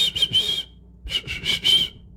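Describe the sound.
A person whistles short, high, clear notes in two bursts: three quick tones, a brief pause, then four more, with no talk.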